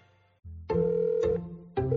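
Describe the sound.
A telephone rings for a prepaid calling-card call to El Salvador. It plays a short run of steady electronic tones that step from one pitched note to the next, each ring clear and alone.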